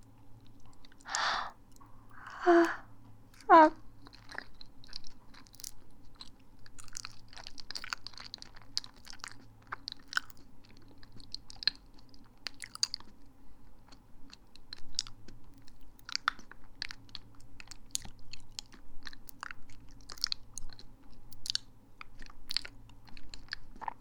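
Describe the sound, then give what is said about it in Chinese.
Someone chews and eats a sweet banana, making quiet wet smacks and soft mouth clicks throughout, with a few louder bursts near the start, over a faint steady hum. “但是好甜啊，这个香蕉。还蛮好吃的”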